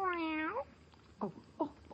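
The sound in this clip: Cat meowing: a happy, hungry white kitten gives one long, clear, drawn-out meow, then three shorter, sharper meows spaced apart, with no talk over them.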